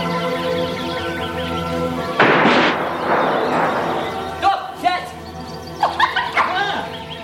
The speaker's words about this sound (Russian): Глупый пес! Не нашел птицу!